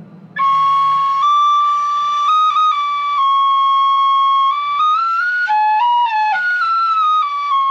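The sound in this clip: A homemade, untuned flute with holes punched at random is blown, giving clear, pure whistling tones that shift in steps between held notes of odd, off-pitch intervals. It plays loud and alone, with no talking.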